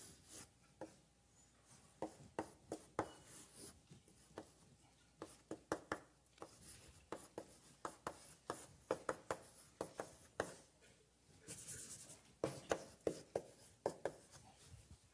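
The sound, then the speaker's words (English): Many quick, scratchy strokes of a diagram being drawn on a board during an electronics lecture on dependent sources and amplifiers. Irregular taps and rubs in a fairly faint, busy rhythm, with no talk. “I often draw a circuit like this. This looks pretty messy. I will often draw the circuit like so.”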